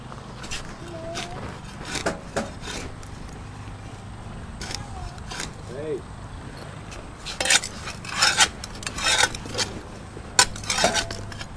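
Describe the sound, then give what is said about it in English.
A child plays with a spoon, making many irregular clinks and scrapes against dishes. The metallic taps come in scattered bursts that grow louder and denser toward the end. “Playing with a spoon.”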